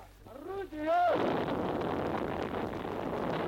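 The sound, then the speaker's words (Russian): Artillery gun firing at a Soviet battery in 1943, while preparing to break the Leningrad blockade; a brief shouted voice gives way to a loud blast and a long, rumbling roar. “Огонь! Первое готово! Первое орудие! Это происходит в 1943 году на одной из батарей в момент подготовки к прорыву блокады.”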